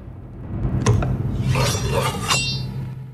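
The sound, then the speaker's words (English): A knife is pulled from a kitchen knife rack: a few short metallic clinks and a brief scraping slide over a low, steady hum. “In the kitchen, somebody grabs a knife from the rack.”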